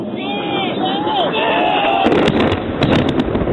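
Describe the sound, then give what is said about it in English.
Bombs dropping and exploding on Mazdrak, heard through a narrow, radio-like channel: thin whistling tones drift at first, then a rapid run of many sharp, loud blasts crackles over a steady noisy hiss. “confirm that's bombs dropping on Mazdrak.”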